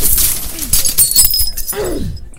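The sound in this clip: Crates full of glass bottles are thrown and smash, giving loud bursts of shattering glass followed by scattered clinking shards across the whole stretch.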